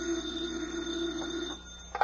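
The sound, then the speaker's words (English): A telephone bell rings at a desk in a field office: a sustained, steady ring that holds for about a second and a half, then breaks off, followed by a brief sharp sound near the end. “Special Agent Jim Taylor is at his desk when the phone rings”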